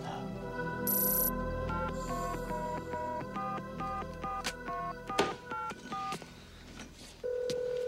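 A telephone number is dialed on a keypad: many short, evenly paced dual-tone beeps in a quick series, opened by a brief high click and closed by a longer steady tone.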